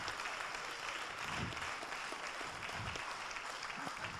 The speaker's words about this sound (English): And let's applaud our baptismal candidates.